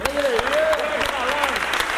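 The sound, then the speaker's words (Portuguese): A round of applause for a guest at a cultural event, with steady clapping running throughout while a voice talks over it. “Uma salva de palmas pro Elêncio, gente.”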